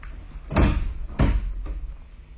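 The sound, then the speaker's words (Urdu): A door is opened with two heavy wooden thuds a moment apart, followed by a fainter third knock-like bump. “جا کر دیکھ تو کون آیا ہے. دروازہ کھول اور پھر اپنا کام کر.”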